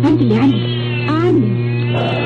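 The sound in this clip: A kitten meows twice, each call a wavering, rising and falling cry, while it is coaxed to drink chicken broth. A steady low hum runs underneath throughout.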